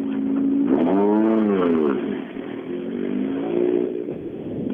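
A rally car's engine revs as it drives off toward the day's second-to-last special stage; a loud, steady engine note climbs and falls in pitch early on, then settles into a rougher drone with a smaller rise near the end.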